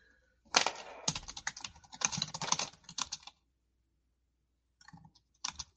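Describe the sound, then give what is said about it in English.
Rapid clicking of typing on a computer keyboard, loud and dense in two long bursts, then a pause before two short bursts of keystrokes; no voices. “Why can I not type?”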